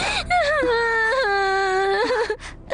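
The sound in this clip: A woman cries in a drawn-out, whimpering wail. The high voice wavers and bends in pitch through one long sob, breaking off near the end.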